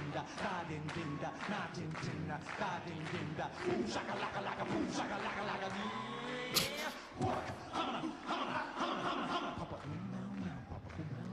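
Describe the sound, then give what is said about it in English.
A concert crowd chants in unison during a live show, loud and sustained, with dense overlapping voices throughout. “Now this chant gets longer and longer as the years goes on.”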